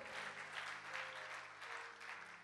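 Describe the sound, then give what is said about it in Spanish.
A church audience claps together for the Lord while standing, a faint, continuous patter of many hands with no pauses, swelling slightly in waves. “Dale palmas al Señor, ponte de pie.”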